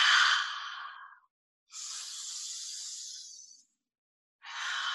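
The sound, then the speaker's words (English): Deep breathing during a guided group meditation: three long, airy breaths, each swelling and fading, separated by brief silences, with no talk over them. “Cycles and cycles of joyful and powerful breaths. Deeply in, deeply out.”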